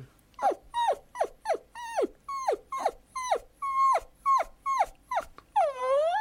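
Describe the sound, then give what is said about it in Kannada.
A family pet dog whimpers in many short, high whines, each sliding downward in pitch, repeated in a steady rhythm and closing with a longer drawn-out whine. “ನಮ್ಮ ಮನೆ ನಾಯಿ ಕೂಡ ಆಗಿನೆ ಅದು ಈ ಥರ ನಮ್ಮನ್ನು ಕೇಳುತ್ತೆ, ಏನೋ ಅದರ ಭಾಷೆಯಲ್ಲಿ ಅದು ಕೇಳುತ್ತೆ.”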